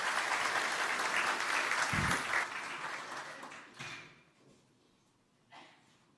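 Applause at a church service welcoming a guest: dense, sustained clapping that thins out and fades after a few seconds, with a few scattered late claps.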